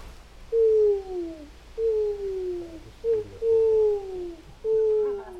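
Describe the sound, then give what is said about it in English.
A person imitates an owl hoot to call a forest-bathing group back together on a woodland walk, giving five whistle-like hoots that each slide downward in pitch, one noticeably shorter, with no talk around them. “So usually I call you back with an owl hoot, and it sounds like this.”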